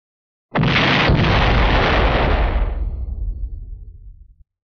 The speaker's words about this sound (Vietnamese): Vòng xoáy màu bạc kia ầm ầm nổ bể ra